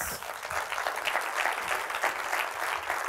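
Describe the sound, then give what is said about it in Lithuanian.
An audience applauds to welcome a guest, with steady, continuous clapping that swells and dips slightly in loudness. “Pasitikime plojimais.”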